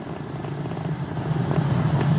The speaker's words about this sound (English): plus 35 seconds into the Polaris Dawn mission, flying crew on board Dragon and Falcon 9 to new heights.